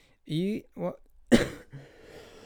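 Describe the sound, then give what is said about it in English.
A sharp, rough cough bursts out after a couple of short voiced sounds from the same person, then trails off into a breathy, fading tail. “Excuse me, I've been having a bit of a cough for a while.”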